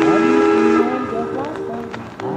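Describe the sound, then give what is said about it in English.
An old train sounds its horn in a loud, sustained chord of layered tones that eases off after a moment and carries on more softly over rumbling rail noise. “An old train sounding its horn on Radio Phrenia.”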